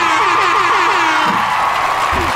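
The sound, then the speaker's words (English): A group gives hand claps for a clever answer: a dense, lively burst of clapping runs the whole time, with voices calling out over it. “Let me give you some hand claps for that.”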